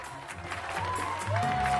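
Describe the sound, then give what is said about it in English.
Neighbours in Queens applauding a couple: a soft, continuous patter of clapping from a small crowd, growing slightly louder toward the end, with a faint sustained tone underneath. “Back in Queens, Charlie and Muriel's neighbors are applauding them.”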